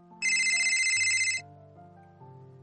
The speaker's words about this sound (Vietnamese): Đợi đến khi tiếng chuông gần tắt, Cố Nghiên Thù mới bắt máy